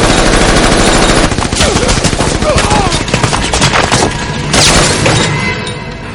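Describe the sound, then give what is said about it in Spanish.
Loud, rapid bursts of machine gun fire come from the back door of a vehicle in an action-film street shootout. The harsh, crackling volleys run almost continuously before tapering slightly at the end. “Los y Luis disparan con la ametralladora desde la puerta trasera y acaban con todos los hombres que quedan en la calle.”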